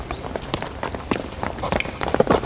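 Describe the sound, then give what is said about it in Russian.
A dog runs through residential courtyards, its footsteps a quick, irregular patter of many light impacts over a constant background hiss, with no clear pauses. “Собака бежит через дворы.”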